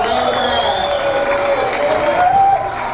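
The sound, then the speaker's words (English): Audience applause at a community benefit gathering, a dense continuous wash of clapping and crowd noise holding steady and fairly loud for the whole stretch, with a sustained tonal hum running beneath. “Daryl Cherney a big round of applause”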